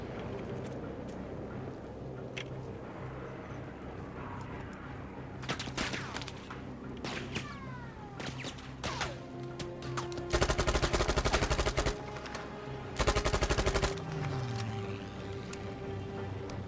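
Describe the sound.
Gunfire from a weapon in the video game Battlefield V: scattered single shots and short bursts, then two long rapid automatic bursts, over a steady low rumble.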